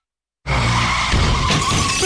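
A car skids in a long, loud tire screech that starts abruptly and holds steady, with a brief sharp crash-like burst midway, as the car is wrecked beyond repair.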